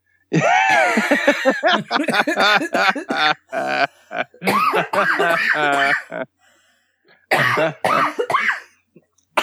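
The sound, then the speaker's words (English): A person choking and coughing after trying to breathe and swallow at the same time: loud, strained coughs and throaty sputters in several clusters, separated by short pauses. “just made myself choke.”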